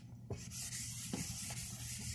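A graph being drawn on a board: faint scratching and rubbing strokes, a few brief sharper scrapes among a soft, continuous scuffing, quiet and alone.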